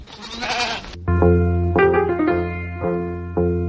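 Sheep from a village flock bleat in harmonic, wavering calls after about a second of rough noise. Several bleats follow one another closely, some long and steady, others shorter.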